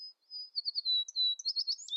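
An American tree sparrow calling: a rapid run of thin, very high chirps and twittering notes, quite faint and uneven in rhythm, with no voices.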